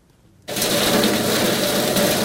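A homemade electric chaff cutter, built on a welded iron-pipe four-legged table with an electric motor mounted underneath and a blade that chops grass finely, starts up after a moment of silence into a loud, steady whirring drone.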